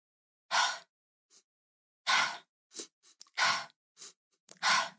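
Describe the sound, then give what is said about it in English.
Rapid three-part breathing: an inhale into the belly, an inhale into the chest, then a release out through the mouth. Loud, airy mouth exhales alternate with softer, shorter inhales in a quick, uneven rhythm, with no talking. “Then what she taught us was a three part breath where we inhale into the belly, inhale into the chest, and release through the mouth. And then it got quicker, so it sounded like this.”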